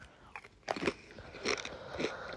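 Potato chips crunched while eating: a few faint, crisp bites and chews, irregularly spaced, with no voices.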